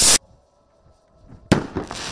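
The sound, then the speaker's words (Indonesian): Fireworks set off at sunset during Ramadan in Prizren, part of a local tradition: one sharp loud blast, a quiet gap with a faint trace, then a second loud burst that trails into crackling. “Ia menunggu saat matahari terbenam, menyalakan kembang api yang membuat kembang api itu terdorong naik ke langit dan meletus”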